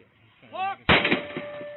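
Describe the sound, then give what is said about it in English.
A single gunshot in police body cam footage at a house's front porch: a man shouts briefly, then one sharp, loud crack bursts out and leaves a thin ringing tone and a rough, fading tail. “A police officer misread the situation and shot the man who stepped onto the porch. And that one single bullet killed him.”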